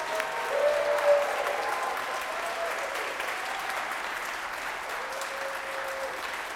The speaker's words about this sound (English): Let us please put our hands together to welcome the newest members of the First Unitarian Universalist Society of San Francisco.